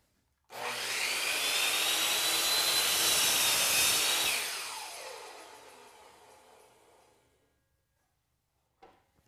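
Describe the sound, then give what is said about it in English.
A power saw blade lowers into wood molding to make a bevel cut. It gives a loud, steady whine for about four seconds, then winds down and fades, followed by a brief click near the end. “And just as before, I've got my workpiece marked, and I'll lower the blade and align it on the waist side of that mark and make the cut.”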